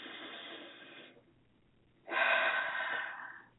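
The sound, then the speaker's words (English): Deep breathing during a guided relaxation: two long, audible breaths separated by a quiet pause, the second fuller and louder, with no talk over them. “All right, let's take some deep breaths.”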